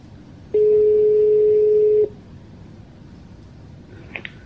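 The ringing tone of an outgoing audio call placed from an iPhone: a single steady tone lasts about one and a half seconds, then stops, followed by a couple of faint short blips.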